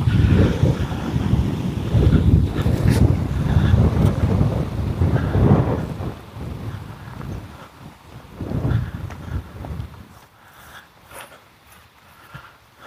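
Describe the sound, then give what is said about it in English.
Wind blowing through a cottonwood tree makes a broad, rushing rustle that swells and eases in gusts, loudest early on and then quieter, with low buffeting from wind on the microphone. “I don't know if you can hear the wind in this cottonwood tree. Or through the air filter on the wind filter on the microphone.”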